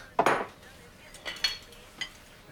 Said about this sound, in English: dishes up some pancakes